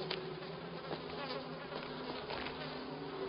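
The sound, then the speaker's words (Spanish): Bees buzzing among vegetation near rocks, a faint, steady, continuous drone with no breaks or voices. “Ambos espantan abejas con las manos.”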